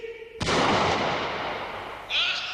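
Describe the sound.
A single rifle shot aimed skyward at a golden eagle during a hunting scene, a sudden loud crack followed by a long, rumbling decay that fades slowly.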